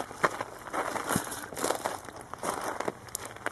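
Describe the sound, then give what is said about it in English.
Footsteps of journalist Paul Salopek walking on foot in East Africa: faint, irregular crunching steps with soft scuffs between them, with no talk. “What you're hearing right now are the footsteps, the actual footsteps of Pulitzer Prize-winning journalist Paul Salopek. He's traveling by foot from East Africa”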